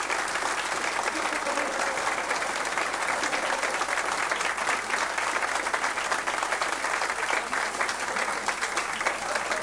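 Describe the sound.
Audience applause, a dense and steady wash of many hands clapping that stays loud and even for about ten seconds.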